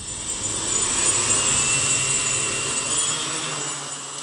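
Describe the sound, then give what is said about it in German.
Loud, steady whirring buzz of a homemade wooden drone lifting off, its frame cut to shape and fitted with rotors, a flight controller and speed controller; the high-pitched rotor whine holds constant throughout with no voices. “Die Holzdrohne hebt ab.”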